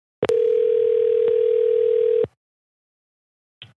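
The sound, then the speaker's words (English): A telephone dial tone sounds while a call is being placed: a steady, buzzing tone that holds for about two seconds between sharp clicks, followed after a pause by one brief click. “I'm calling him. Screw it. I'm calling you.”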